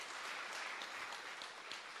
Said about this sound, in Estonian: Tõuske püsti. Ja teeme nende suur aplaus.